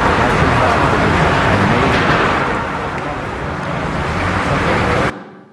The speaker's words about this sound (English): okay, so you can probably identify traffic noise and cars directly.